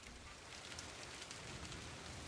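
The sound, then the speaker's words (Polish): Heavy downpour of rain makes a steady, even hiss of dense drops throughout, fairly soft and with no breaks or voices. “Ale ulewa.”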